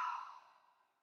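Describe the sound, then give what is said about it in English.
A single deep breath blown out through the mouth during a relaxation exercise: a soft, airy whoosh that starts at its strongest and fades away steadily over about a second, with no talking. “And take a deep breath in, breathing out through your mouth.”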